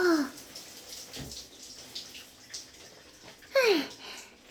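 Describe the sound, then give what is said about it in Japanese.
Water runs and splashes as shampoo foam is rinsed off hair, a soft, steady trickling flow. It swells into a louder splash near the end. “ぬるぬると泡、きれいに落ちたよ。あとは仕上げにリンスするね。”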